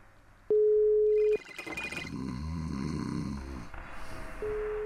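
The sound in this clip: A phone sounds its call tone after the call button is pressed. A steady mid-pitched beep gives way to a rough, noisy stretch, then the same beep starts again.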